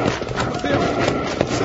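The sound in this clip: Horse hooves clip-clop steadily on a Western trail, a dense run of hoofbeats carrying evenly through the whole clip at a fairly loud level.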